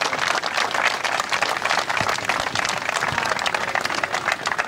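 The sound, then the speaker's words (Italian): Sustained applause from a crowd gathered in mourning ahead of a funeral, a dense, steady wash of clapping that stays at an even, fairly loud level throughout with no voices standing out. “Applausi e commozione.”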